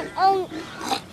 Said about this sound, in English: Have you come to see the pigs?